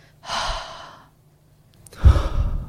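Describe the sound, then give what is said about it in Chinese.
Deep breaths out after a hard shoulder shrug: two audible, airy exhales separated by a pause, the second one louder and fuller. “用力的耸肩，然后呼吸”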